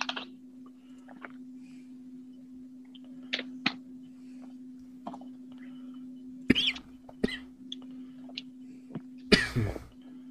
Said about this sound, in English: Yeah, sorry. Excuse me. I was choking. I'm dying.